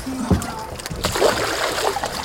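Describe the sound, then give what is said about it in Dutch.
A shark fitted with a transmitter and released plunges back into the water, giving a short low splash followed by a burst of sloshing and spray that trails off into gentle water movement. “Plonst hij het water in en is hij weer weg. Naar de diepte.”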